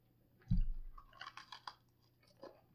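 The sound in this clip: Someone eats a Mud Pie Blizzard, a coffee-flavored ice cream with Oreos and little chips. A soft thump is followed by a few quiet, crunchy chewing sounds, all faint and without speech.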